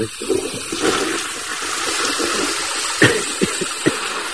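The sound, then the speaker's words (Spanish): Water gushes nonstop from a leak in a home bathroom, a loud, continuous rushing hiss with a few brief, sharper bursts toward the end. “Le llamo desde el baño de mi casa, que es que resulta que esto no para de salir agua del baño.”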